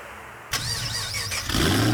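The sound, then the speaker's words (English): A car engine cranks and catches after a short silence, settling into a steady running note before a sharp rev pushes it louder near the end; no voices. “Rev your engines.”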